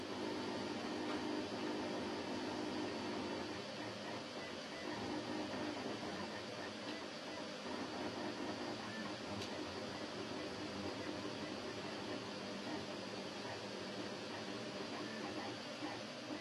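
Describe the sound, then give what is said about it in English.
Steady whirring hum of a 3D printer at work, an unbroken and fairly faint mechanical drone with no talking. “And that is the sound of my 3D printer at work.”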